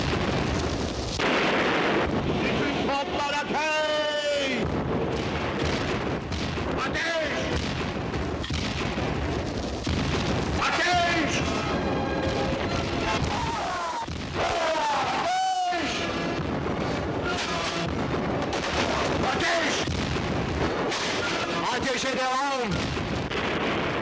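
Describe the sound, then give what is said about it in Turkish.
A volley of cannon fire aboard a sailing warship: heavy, continuous booming and rumbling blasts fill the whole stretch, mixed with loud shouting voices. “Bütün toplar ateşe hazır olsun. Bütün toplar ateşe hazır olsun. Bütün toplar ateşe hazır olsun. Ateş!”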